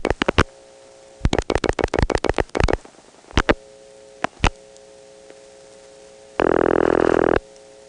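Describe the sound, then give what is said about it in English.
Telephone dialing signals pass through an exchange's second register sender on a call to a hospital line: several groups of sharp, rapid pulses, then a steady buzzing tone lasting about a second near the end. “Okay, I just dialed a 3, and that second register sender repeated it. Here are 2 more digits.”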